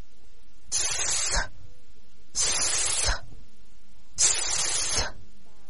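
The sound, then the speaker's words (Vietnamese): A voice imitates a snake's hiss as a children's S-sound speech exercise: three steady, bright hisses of under a second each, separated by short pauses, with no talk. “đó là tiếng rắn kêu. Bằng tay, bạn bắt chước cử động của con rắn nhỏ kêu về hướng của đứa trẻ.”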